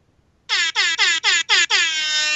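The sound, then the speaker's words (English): Loud air horn blasts sound in six quick honks, each cut by a short gap, with the last held longer and steady. There are no voices. “I might have an air horn. Let me look. I have an air horn. Hold on.”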